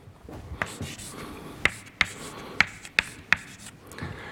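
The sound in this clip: Writing an equation by hand: soft scratching strokes, then five sharp, separate taps spaced about half a second apart, with no talk.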